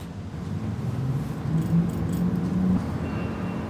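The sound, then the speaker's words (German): An old harbour heavy-lift crane lowers its large hook after a control lever is pushed. A continuous low mechanical hum sits over a broad, steady rumble, with no voices. “Langsam fährt der mächtige Haken herunter.”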